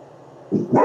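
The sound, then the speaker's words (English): A household dog barks twice in quick succession, short sharp yaps rising over a faint low hum, the second bark louder than the first. “Oh, I'm sorry. That's my dog.”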